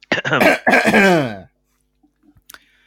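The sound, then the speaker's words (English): Two people cough at the same moment in a couple of loud, harsh, voiced coughing bursts lasting about a second and a half, followed by silence and a few faint small noises. “Well, we both coughed at the same time.”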